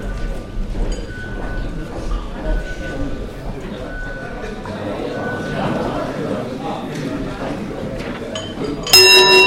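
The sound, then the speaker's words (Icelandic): An electric bell in a parliament chamber rings to call members to vote: a loud, sustained metallic ring cuts in near the end, after a long stretch of low chatter and room noise. “Forseti ætlar að hringja svo allir þingmenn háttvirtir fái tækifæri til þess að greiða atkvæði.”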